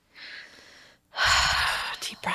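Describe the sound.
Someone takes a deep breath: a soft, airy breath, then a louder and longer rush of breath.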